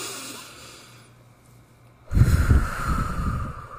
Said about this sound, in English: Take a deep breath. Let's take one right now. Ready?